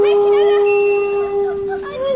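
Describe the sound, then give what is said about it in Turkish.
A wolf howling at the door of a house: one long, sustained, tonal howl at a steady mid pitch, rich in overtones and wavering slightly toward its end. “Kurdun biri kapının önüne gelmiş.”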